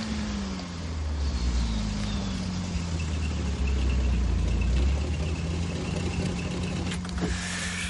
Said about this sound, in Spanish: Detiene el deportivo. Detrás de ellos para el coche de la policía.